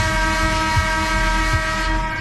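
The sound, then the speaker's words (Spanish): A horn blast sounded on cue: one loud, sustained, steady harmonic tone that holds for the whole clip over a low rumble, with no talk. “¿Te puedo tocar la bocina? Venga.”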